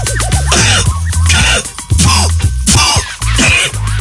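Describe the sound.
Repeated harsh coughing mixed with throat clearing, loud and insistent, in a run of many bursts with brief pauses between them and no speech.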